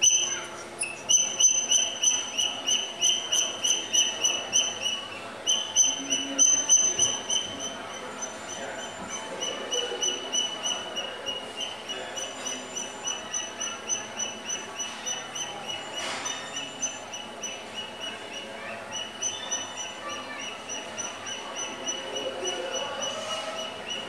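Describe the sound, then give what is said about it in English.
A common redshank calls in long runs of rapid, high piping notes, delivered in rhythmic repeated bursts. The calls are louder at first and then settle to a softer steady series over a faint hiss. “common red shank sounds like this.”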